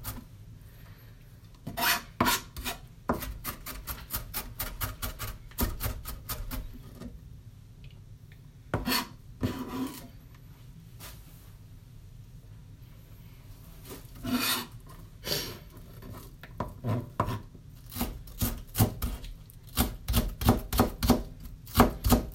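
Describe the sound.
Rapid knife chops mincing an onion, crisp dry taps arriving in quick bursts of many strokes separated by short pauses, heard alone without talk.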